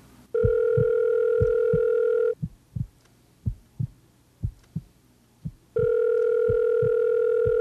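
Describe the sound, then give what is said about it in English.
A telephone rings in two long, steady electronic tones separated by a pause, while low, regular heartbeat thumps pulse beneath and between the rings. “The volume increased with every ring of the telephone.”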